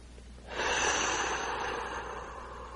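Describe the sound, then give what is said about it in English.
One long, deep breath drawn in during a relaxation exercise, a soft airy rush that starts abruptly and holds steadily before fading slightly, with no talk over it. “Let's take a deep breath and go deeper.”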